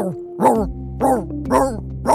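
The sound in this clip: A voice actor imitates a singing dog, producing four yowling, bark-like sung notes with arching pitch contours, spaced evenly with short pauses between them, the last one cut off.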